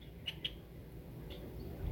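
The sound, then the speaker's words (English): Red-winged blackbird calling: a few brief, high chirps, the first two close together and a fainter one later, rising faintly above a steady low background rumble. “what you are hearing here is a red-winged blackbird”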